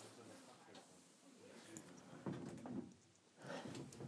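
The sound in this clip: An automatic communication door on a train waiting at Elmshorn Station opens and closes, giving a few broad whooshing, rumbling bursts over a steady background hiss.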